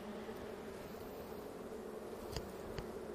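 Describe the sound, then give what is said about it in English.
Honeybees buzz in an opened hive as a frame is lifted out: a faint, steady, low droning hum with two brief taps near the end. “Use our tool to help us get into the hive and gently pull out the frame.”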